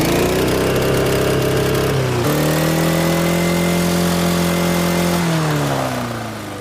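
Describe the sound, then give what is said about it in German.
A lawn mower engine running at its rev limiter gives a loud, steady droning buzz. Its pitch steps down twice, and it fades slightly at the end. No voices are heard. “Ich habe gar nicht gewusst, dass ein Rasenmäher einen Begrenzer hat. Puh, das gibt's. Aber nicht bei allen, aber bei dir schon. Starten wir mal an.”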